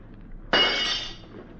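A glass window pane breaks in one sudden, loud, bright crash that rings briefly and then fades away over about half a second, with no voices.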